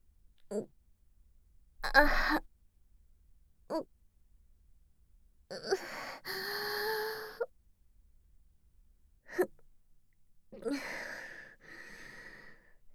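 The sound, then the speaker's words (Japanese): A person crying on cue, in several separate bursts of sobbing breaths, gasps and wails with near silence between them. The longer bursts fall in the middle and near the end. “では、泣きます。”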